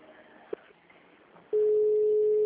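A phone call ringing unanswered: after quiet low background noise, a steady mid-pitched ringback tone starts abruptly partway through and holds unbroken to the end.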